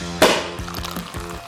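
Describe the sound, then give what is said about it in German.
Champagne glasses clink in a toast at a law office, one bright ringing clink followed by a few lighter, quicker taps and knocks. “Auf die Haftentlassung stoßen die Verteidiger in der Kanzlei an, machen eine Flasche Champagner auf.”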